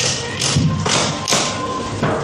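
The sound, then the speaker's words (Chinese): A reclining school desk chair is unfolded and adjusted, giving a few muffled thuds and knocks over a steady, noisy background rustle. “一、打开桌面；二、拉开头枕；”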